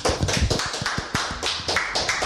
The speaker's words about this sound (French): Applause, applause, applause.